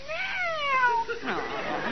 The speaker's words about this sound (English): Oh, pretty cat. Oh, pretty cat.